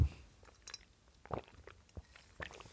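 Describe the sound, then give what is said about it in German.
Faint mouth noises of someone sipping tea: a few quiet slurps and small gulps with soft clicks, spaced irregularly in near silence. “Ich muss mal eben einen Schluck Tee trinken.”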